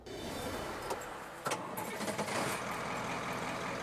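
Truck engine of a mobile farmer's market on wheels, starting up and then running at a steady low rumble, with a few sharp mechanical clicks midway.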